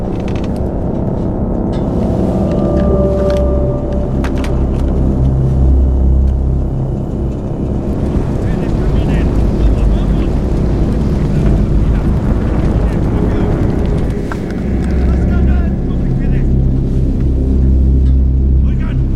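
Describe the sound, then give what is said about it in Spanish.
A boat motor runs with a steady, loud, low rumble mixed with wind noise, holding constant throughout. “¡Detente! Apaga el motor.”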